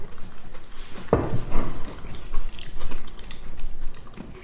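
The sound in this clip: Crunchy gluten-free crumble with tiny streusel bits is bitten with a sharp, loud crunch, then chewed with a few softer crunching sounds.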